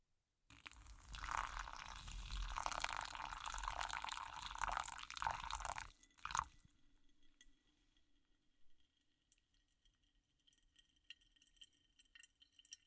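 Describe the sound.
Liquid poured slowly and gently from directly above into the centre of a vessel: about six seconds of a continuous, even splashing stream, followed by faint scattered drips and small glassy clinks.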